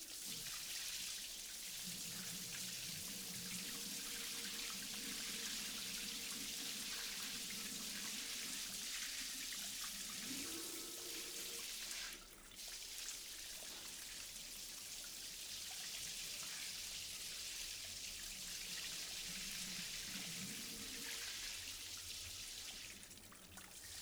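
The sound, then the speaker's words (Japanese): Warm water running steadily from a tap for washing someone's hair, a continuous soft hiss and splash with a brief break about halfway through. “ではまず先に頭を洗いましょうか。まずはお湯を。”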